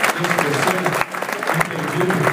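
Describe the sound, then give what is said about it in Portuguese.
A church audience applauds in praise of the Lord, a steady, busy patter of many hands clapping throughout, with a voice speaking over the clapping. “E os demais que aplausam o nome do Senhor.”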